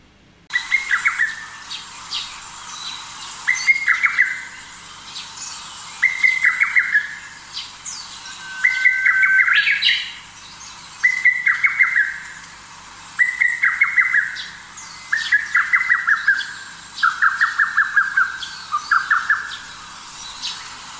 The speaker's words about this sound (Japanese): ホトトギスは28センチぐらいのカッコウの仲間です。ウグイスの巣に卵を産んでヒナを育ててもらいます。ウグイスの鳴き声も入っていましたね。